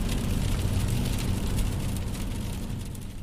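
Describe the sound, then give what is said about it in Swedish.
Steady road noise comes from a car driving on a country road from Lund toward Löberöd. A continuous low engine and tyre rumble runs under a broad hiss, fairly loud and even throughout, with no talking. “nu kör vi från Lund och vi siktar på Löberöd och vi ska leta på en avfart vid Hurva här så ska vi svänga av där”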